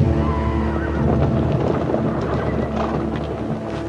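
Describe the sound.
A group of riders galloping their horses back over a hill after a battle: a dense, steady rumble of hooves with a horse whinnying, loud throughout.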